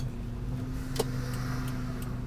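A steady, low rumble of a car driving on the road, with a few faint ticks sounding over the constant hum and no one speaking.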